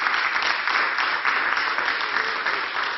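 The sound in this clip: Audience applause, a dense, steady wash of clapping that holds an even loudness throughout with no voices over it.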